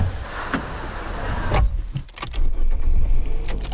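Keys jangle, then car sounds follow with a few thuds and clunks as someone gets into a car to drive across Marseille. The jingling comes first, and louder motor and handling noises fill the second half.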